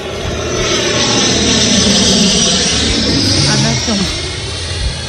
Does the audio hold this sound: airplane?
yes